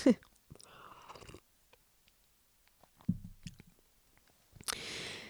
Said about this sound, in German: So, ich muss jetzt erstmal einen Schluck trinken.